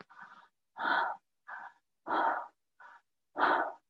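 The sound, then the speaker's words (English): Cyclic breaths flow in and out through the mouth with a relaxed jaw, short airy inhales alternating with longer, fuller rushing exhales in about three even rounds, separated by silent gaps. “breathing in and out through the mouth with a relaxed jaw. And you make that cycle. So up the spine, inhaling, and down the front of the body, exhaling.”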